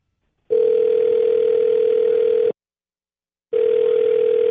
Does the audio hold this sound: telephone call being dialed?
yes